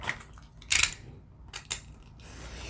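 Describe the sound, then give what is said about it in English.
A craft knife trims paper edges: a few faint, brief scraping strokes with small clicks, followed by a longer soft hiss near the end. “All right, let's cut off those edges. See, here we are cutting off edges again. And that means we're trimming.”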